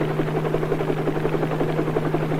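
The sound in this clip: A helicopter flies with a loud, steady, droning buzz from its rotor and engine. The noise holds an even, unbroken hum throughout, and no voices are heard over it.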